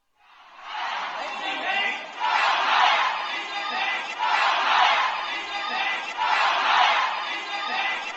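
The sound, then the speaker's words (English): Crowd of protesters in Shanghai chanting a slogan against the country's leader, massed voices repeating the same phrase in regular, evenly spaced bursts, loud and sustained. “That's the sound of protesters in Shanghai chanting "Down with Xi Jinping."”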